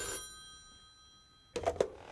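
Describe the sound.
A police office telephone rings in one short rattling bell burst of a few quick pulses, following a faint steady tone and a quiet stretch.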